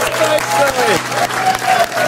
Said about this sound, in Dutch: Ah, dames en heren, maak een groot applaus voor